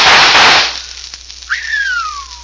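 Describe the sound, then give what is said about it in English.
Gunfire aimed at small pieces of adobe tossed into the air: a loud, noisy burst, then a sharp crack, and finally a high whining ricochet that slides steadily down in pitch. “Smashed it. 3 of them before they hit the ground. By thunder, that's what I call shooting.”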